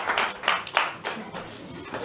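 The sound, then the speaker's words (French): Scattered clapping from an audience at a French-language teaching session, a few uneven bursts of claps spread across the short stretch, moderately loud, with no one speaking over it. “Alors, applaudissez pour elle.”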